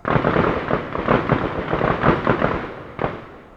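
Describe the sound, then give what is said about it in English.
Gunfire at a gun range, many sharp shots fired in quick, overlapping succession with echoing tails, ending in one last isolated report and a fading echo. “You can probably hear the gunfire in the background of that clip.”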